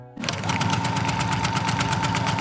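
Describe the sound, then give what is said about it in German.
A Bernina sewing machine rattles in a fast, even rhythm of rapid mechanical stitching. It starts abruptly and runs at steady volume over a low hum. “da rattert eine Bernina-Nähmaschine, die wohl bekannteste Nähmaschine der Schweiz.”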